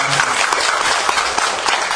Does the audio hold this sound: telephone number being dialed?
no